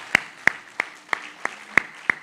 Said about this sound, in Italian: Un sentito ringraziamento va a voi, al pubblico, per la partecipazione e l'attenzione. Grazie, un applauso lo facciamo noi a voi.